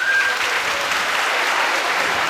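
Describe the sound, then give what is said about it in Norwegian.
Loud audience applause for the organisers of a Christmas show, a thick, steady patter of many hands clapping that keeps an even level throughout. “Så jeg synes vi skal gi dem en applaus.”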